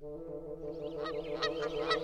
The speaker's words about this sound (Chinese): 这时大雁们从教堂的钟楼上飞了下来，在城市上空来回盘旋。